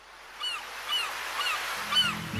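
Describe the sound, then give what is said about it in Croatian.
Seagulls call by the sea, a few faint squawking cries repeating over a steady wash of surf-like noise, with a low tonal musical sound entering at the end. “Prije jutra u zoru budimo vas s galebima na moru”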